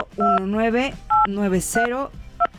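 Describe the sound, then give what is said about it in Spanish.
Touch-tone keypad beeps as a telephone number is dialed: a few short, steady two-tone bursts set among a person speaking. “Y vamos a marcar de este lado al 55. A ver, ahí vamos.”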